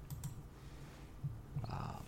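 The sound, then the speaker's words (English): Faint computer-keyboard typing as website addresses are keyed in: a few scattered, soft keystroke clicks with pauses between them, heard alone. “Let me just type in a few of these websites that we like to source for these and see if anything is breaking.”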